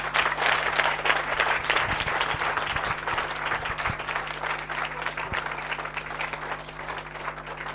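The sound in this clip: A church audience applauds, with sustained, dense clapping that stays strong throughout and eases slightly toward the end.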